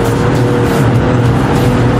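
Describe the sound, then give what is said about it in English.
A race car engine roars loudly as it accelerates out of a small right-hand corner on a drying circuit, a dense, constant drone that stays at the same level throughout. “We can hear the tire. Yeah. Good power exit of the corner.”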